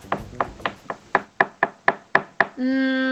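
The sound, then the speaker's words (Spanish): Knocking on a door sounds as a steady, even series of sharp raps, followed by a held, buzzing tone. “¿Una puerta que se golpea? Sí.”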